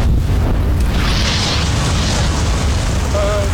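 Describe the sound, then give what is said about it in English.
A vintage Bentley car bursts into flames with a loud, continuous roaring rush of fire that stays at full strength throughout. “Officer, have you never seen an example of spontaneous automotive combustion?”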